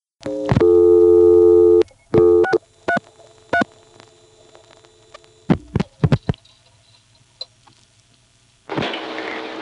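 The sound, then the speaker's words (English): Clicks and tones on a telephone line, heard while a telephone exchange pulses internally on an invalid local code call routed to a recording. Two steady buzzing tones come first, then several sharp irregular clicks, then a burst of hiss at the end. “Here's an invalid local code going to the recording. You'll notice again that the internal pulsing that it uses to get the trunk to the recording is just barely audible.”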